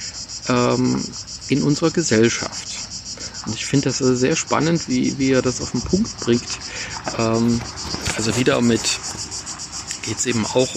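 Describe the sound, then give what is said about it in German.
Crickets chirping in a grove make a continuous high-pitched trill that runs evenly throughout, while a person talks steadily over it. “Übrigens, hört man die Grillen jetzt? Also die sind ja eigentlich die ganze Zeit hier, aber heute habe ich so das Gefühl, es ist so warm geworden, dass also die Grillen auch irgendwie auf Pause stellen, aber jetzt haben sie gerade wieder losgelegt.”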